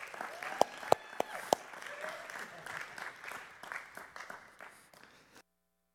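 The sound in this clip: An audience applauds to welcome a speaker onto a church sanctuary stage. A few sharp, loud claps stand out at first, then the steady clapping thins out and stops, leaving silence.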